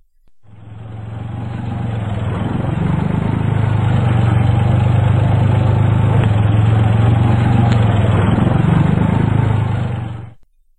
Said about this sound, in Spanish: Tenemos el sonido de un tractor.